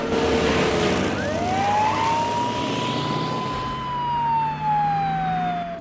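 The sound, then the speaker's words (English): A police car siren wails as the car sets off in pursuit of bikers, a loud sweeping tone that rises in pitch, holds steady, then slowly sinks, over a low vehicle engine rumble. “They pass a police car, which is parked off-road. It turns its sirens on and gives chase.”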